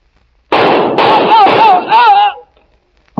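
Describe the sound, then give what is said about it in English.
A gun fired until it is empty: a dense run of loud, rough bursts packed closely together for about two seconds, then silence. “Mind if I empty my gun first?”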